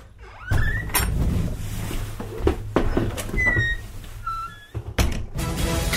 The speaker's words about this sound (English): Silence, please. You'll just hear the latch click.